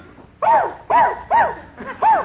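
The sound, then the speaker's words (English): A cocker spaniel barks four times in a loose, uneven rhythm, each bark a short, mid-pitched, fairly loud yap separated by brief pauses over a faint background hiss. “Who's this? A cocker spaniel!”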